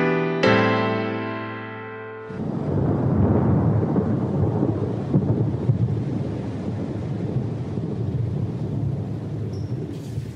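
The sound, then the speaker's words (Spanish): Rain and rumbling thunder burst in abruptly after about two seconds of a sustained tonal sound, then continue as a loud, dense, steady wash to the end. “Gota a gota, en mi cabeza, siento, las noto, empieza a llover.”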